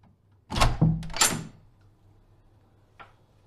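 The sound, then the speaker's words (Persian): A door thuds and rattles in one loud, short burst, followed a moment later by a faint single click in an otherwise quiet stretch. “باز کن این درو.”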